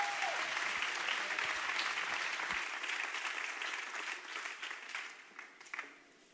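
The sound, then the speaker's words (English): An audience at the Upper Room applauds to welcome a guest rabbi speaker, a full, even burst of clapping that holds steady before tapering off at the end. “And so I want you to give him a good, warm, honoring welcome from the Upper Room.”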